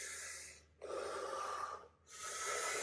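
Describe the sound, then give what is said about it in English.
Deep breathing exercise: long, airy breath sounds, three extended breaths separated by brief pauses, steady and fairly loud with no talking. “5 times deep breath. Do it with me, come on.”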